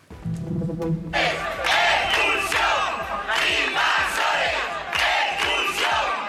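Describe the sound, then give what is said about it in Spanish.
Neighbours in Ceuta protesting against migrant reception centres chant and shout together, loud rhythmic bursts of crowd voices repeating after a brief quieter opening. “Bueno, antes de nada vamos a comenzar, como estas mañanas en Ceuta, con esa indignación que están mostrando los vecinos en una nueva jornada de protestas.”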